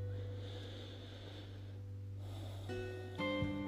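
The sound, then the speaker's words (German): A deep breath drawn in through the nose during an alternate-nostril yogic breathing exercise: a soft, airy rush lasting under two seconds, over a steady low hum. “dann beginnst du mit einem tiefen Atemzug.”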